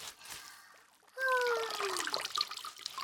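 Water pouring and splashing as someone's back is rinsed in a bath. After a quiet first second it starts suddenly and continues as an uneven, bright trickle.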